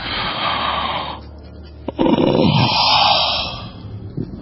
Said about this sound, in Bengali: মাথাটা ভার ভার সারা শরীর ঠেলে বিরাট বিরাট দুটো হাই উঠে এল